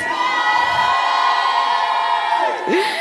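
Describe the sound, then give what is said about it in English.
A studio audience at Worship Harvest Naalya shouting and cheering, a loud sustained roar of many voices with whoops that holds steady for three seconds, then dips briefly near the end. “Thank you so much for that shout.”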